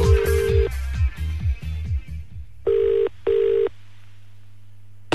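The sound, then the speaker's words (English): Telephone dialing and ringing tone on a phone-in call: a rapid series of short dialing tones, then a paired double ring burst, then quiet ending in a sharp click. “I'm ringing.”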